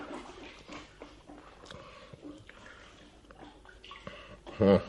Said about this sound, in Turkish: Müsaadenizle gidip elimi yıkayayım şu kovada.